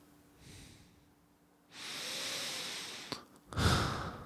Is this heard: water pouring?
no